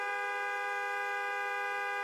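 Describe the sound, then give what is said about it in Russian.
A long car horn blast from a Lada 'Nine' waiting by a forest: one steady, unbroken, buzzy tone that holds at an even loudness for the whole stretch without a break. “услышала долгий автомобильный гудок”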